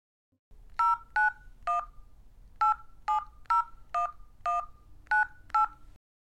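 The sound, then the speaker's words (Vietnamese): Ten touch-tone beeps as a telephone number is dialed to call a friend who is a police officer. The electronic tones come in a steady, evenly spaced sequence, clear and alone, with no talking. “con sẽ gọi ngay cho đứa bạn làm công an.”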